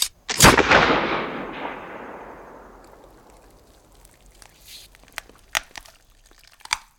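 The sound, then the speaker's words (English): A loud video game gunshot fired at a rabbit bursts out as one heavy blast with a long rumbling decay, followed later by a few fainter sharp cracks; no one speaks. “Shoot the rabbit and wish for something to break through those chains.”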